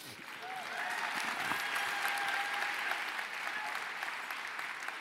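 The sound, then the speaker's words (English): An audience applauds at the Good Food Awards ceremony in San Francisco, with dense, steady clapping that holds at an even level throughout. “Please hold your applause in between winner announcements till the end.”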